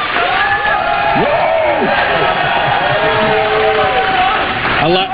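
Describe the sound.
A crowd cheers and whoops for the big winner of the Papa Shot 2024 National Championship, loud continuous cheering and shouts throughout, with voices mixed in.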